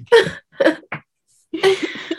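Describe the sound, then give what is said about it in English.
A woman coughs in a few short, harsh bursts, then after a brief pause gives a longer, rougher run of coughing. “She's coughing again.”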